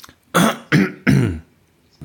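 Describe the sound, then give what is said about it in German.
Three harsh throat-clearing bursts come in quick succession, the last one longest and rasping, loud and alone with silence before and after. “Dieses Räuspern, ne, das kann ich auch nicht ertragen.”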